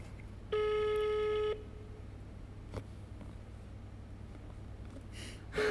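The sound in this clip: A telephone call ringing out on speakerphone: one steady, clear one-second ring tone, then about four seconds of low hum before the next tone begins.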